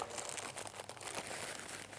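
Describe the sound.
Crinkling plastic packaging is opened with scissors. Soft rustles and crunches repeat irregularly at a low, fairly steady level.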